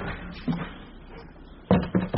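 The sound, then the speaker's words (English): Lid being put on a box loaded with cobblestones, heard as hollow knocks and clunks: one soft bump early, then three quick, louder thuds close together near the end. “Now, right, put the lid on.”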